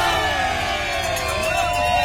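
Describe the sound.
Mexican cycling fans cheer and chant in a dense crowd gathered in front of a team bus after a race stage, a loud, steady wash of many voices lasting throughout.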